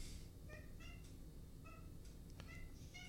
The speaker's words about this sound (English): This cat is nuts. I don't know why you're crying.